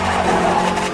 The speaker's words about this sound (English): it sounds like the car is revving up as if the foot is on the gas.